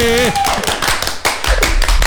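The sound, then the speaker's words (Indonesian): Hand clapping in a radio studio: a quick, irregular run of sharp claps mixed in with voices and background sound. “Wey, tepuk tangan dong.”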